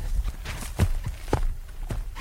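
Footsteps crunch at a steady walking pace along a narrow hillside trail past rocks, climbing on an old ore-cart track above dwarf pine. They come as a series of dull, even thuds with a light gritty edge, and no voices are heard.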